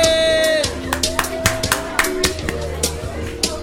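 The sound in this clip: An audience applauds a guest, with a run of sharp claps and taps at a brisk rhythm while voices carry on underneath.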